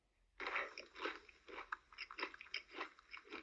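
Crunching of Flamin' Hot Pringles crisps being bitten and chewed, many quiet, crisp crackling bursts in an irregular rhythm, with no voices.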